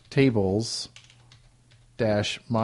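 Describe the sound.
Keys on a computer keyboard click as a MySQL command is typed, a few light, quick taps in a pause between stretches of a person talking.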